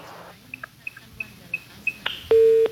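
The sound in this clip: A phone call dropping on a weak signal: a run of short, faint high beeps spaced roughly evenly, then a loud, steady line tone that holds for under half a second at the end.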